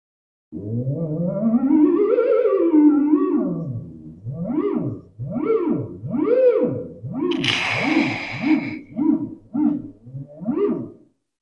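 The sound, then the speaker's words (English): A theremin, an electronic instrument, plays a wavering, gliding tone. A long swooping phrase that rises and falls is followed by many short, repeated swoops of pitch, with a brief hiss bursting in midway. “There's also instruments that sound is made through electricity. So this is an example. It's a it's called a theremin,”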